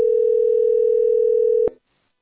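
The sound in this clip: A telephone dial tone sounds while a call is being placed: one steady, loud, mid-pitched hum holds unchanged for under two seconds, then cuts off with a brief click and leaves silence.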